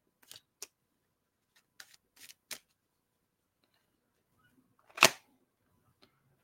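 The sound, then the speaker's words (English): A tarot deck being shuffled and cut, a few quick papery riffles and flicks scattered over the first few seconds, then one louder crisp snap of the cut and a last faint tick. “I'm just shuffling the cards. I'm going to cut it. You know me. I'm just going to cut it straight.”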